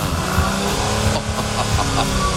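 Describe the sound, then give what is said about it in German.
A car engine with a twin exhaust roars steadily and loudly throughout, a dense, continuous rumble with no clear pauses or breaks. “Ja, so ein Zwillingsauspuff, der macht jedes Auto größer, schneller, schöner.”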